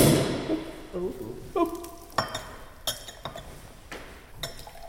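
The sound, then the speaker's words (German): Champagne glasses clinking in a toast: several bright, ringing glassy chinks at irregular intervals, each a sharp tap with a short shimmering decay over a faint background murmur. “Ältere Damen, weiß ich, lieben Champagner, so auch Othella Dallas. Und auch ich freue mich, mit ihr anstoßen zu dürfen.”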